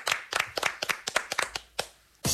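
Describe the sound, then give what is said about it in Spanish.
Applause for a guest: uneven, separate hand claps from a few people, many sharp claps in an irregular rhythm, ending in a short, louder burst of clapping. “Un aplauso para Manuela Paz”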